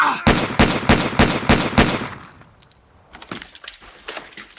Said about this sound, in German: Hat die jetzt geschossen? Die kann doch nicht einfach... Schießen?